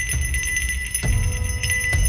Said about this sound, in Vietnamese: Cái chuông đồng bị chạm vào kêu lên leng ca leng keng.